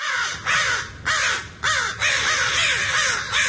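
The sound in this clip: American crow calling, a series of loud, harsh, raspy caws repeated in quick succession with short gaps, each call rough and nasal and falling slightly in pitch.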